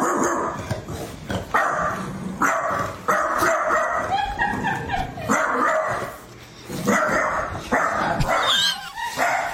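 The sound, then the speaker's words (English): A dog barks at a watermelon: loud, sharp barks come in an irregular series of bursts across the whole stretch, with brief quieter gaps between them. “She just turned to the watermelon. She just takes it. She's barking at the water.”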